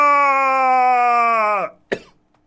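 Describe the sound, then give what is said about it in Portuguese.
A single short cough that is part of a radio jingle, coming right after a sustained harmonic tone ends abruptly. “A tosse fazia parte do jingle. Para quem não acredita, fiquem-se com essa.”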